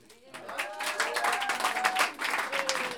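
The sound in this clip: Audience applause at an intimate orchestra concert, a dense wash of many hands clapping that swells quickly after a quiet start and holds steady and loud, with a few faint sustained tones ringing beneath it.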